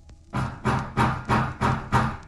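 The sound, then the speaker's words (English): Someone bangs on a door with six heavy, evenly spaced thuds in a steady rhythm, each a loud, booming knock, with no voices. “Who's that banging on the door?”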